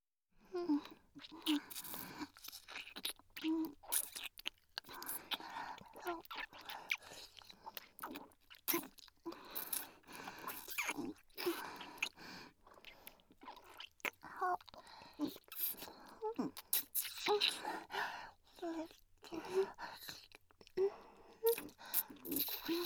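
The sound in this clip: Wet kissing sounds as two people kiss from both sides at once, a long run of soft irregular smacks and squishy lip noises with short breathy pauses between them.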